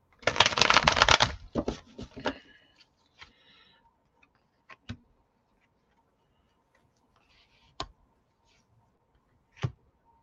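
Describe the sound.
Tarot cards riffle-shuffled for a three-card draw: a dense, loud flutter of card edges for about two seconds, then a few isolated sharp taps and clicks spaced across the quiet remainder, with no talking.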